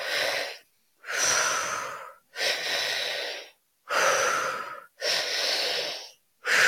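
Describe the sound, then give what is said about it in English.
An activating breathwork technique: a person breathes deep into the belly, up into the chest and out through the mouth. Strong, rushing breaths come in a steady rhythm, each separated by a brief pause. “There's one called the tri-active breath, and it's all in the name. It's a very activating breath, and it's into the belly, up into the chest, and out through the mouth. So it sounds like this.”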